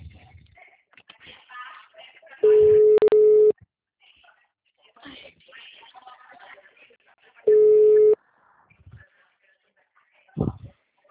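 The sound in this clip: Telephone busy tone after a dropped call: two steady, mid-pitched tone bursts, each about a second long, separated by several seconds of faint background sounds.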